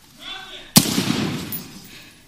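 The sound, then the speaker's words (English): A single sharp gunshot cracks out during a police confrontation with an armed man in a mental health crisis, with shouting voices before it and noisy commotion after. “Drop the gun! He's down. Hey, shots fired.”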